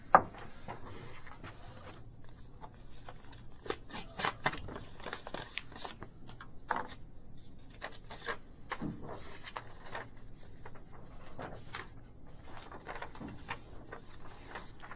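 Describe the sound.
A clerk opens sealed bid envelopes at a public meeting, giving faint scattered paper crinkles, tears and clicks over a low steady hum.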